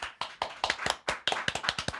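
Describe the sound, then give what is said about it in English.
Applause from a small studio audience comes as a loose scatter of sharp, uneven claps rather than a full roar, each clap crisp and distinct, with no voices. “My live studio audience. How are you doing? Are there applause mic'd?”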